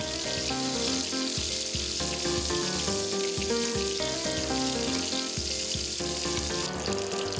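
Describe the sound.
Bacon-wrapped asparagus fries in a pan with a steady, dense sizzle and crackle that stays even and loud from start to finish, with no talking.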